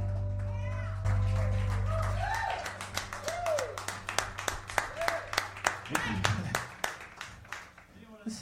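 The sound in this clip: Audience clapping: a run of sharp, irregular claps of moderate loudness starts after a low hum at the opening and carries on to the end, with voices heard underneath.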